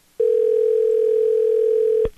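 A steady telephone dial tone sounds after the caller hangs up: one loud continuous pitch held for about two seconds, then cut off by a couple of sharp clicks.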